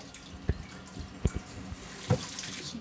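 Water runs faintly from a tap while hands are washed, with a few soft splashes and drips standing out from the low trickle.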